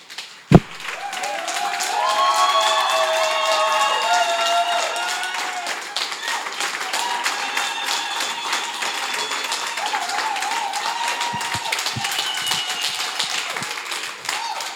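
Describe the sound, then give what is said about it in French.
Church audience stands and applauds, sustained clapping running throughout after one sharp hit at the start, with voices carrying over the claps. “J'aimerais bien qu'on se lève et qu'on applaudisse le Seigneur, franchement.”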